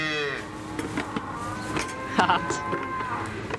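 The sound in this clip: Calves moo on a dairy farm, with a few drawn-out, tonal bleating moos. The first is at the start and a louder one follows later, over low background noise.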